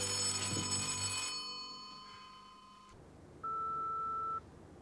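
A telephone rings at night in a house: a single steady electronic ring tone of about one second, clear and alone, following a fading tonal hum.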